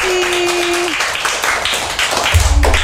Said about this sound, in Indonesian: Boleh nggak nih tepuk tangan untuk teman-teman kita?